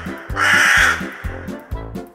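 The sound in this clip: A crow caws on the crow-worship day of the Tihar festival, giving a few harsh, nasal calls in a steady rhythm. The first call is drawn out and the later ones are shorter and clipped.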